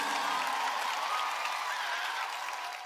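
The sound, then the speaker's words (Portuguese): A church audience applauding, a dense, steady wash of many hands clapping that holds at an even level and tapers slightly at the end, with a faint tonal line running beneath. “Aplauda o rei, querida. Aplauda o rei.”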